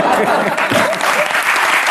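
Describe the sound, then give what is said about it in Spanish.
An audience applauds with dense, steady clapping at a constant level, many hands blending into a continuous loud wash. “No ha cuajado el aplauso al cáncer,”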